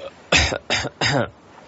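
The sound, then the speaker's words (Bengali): Quiet coughs from a person standing behind someone, three short muffled bursts in quick succession, low in level and heard alone. “আস্তে আস্তে করে কেশে উঠল”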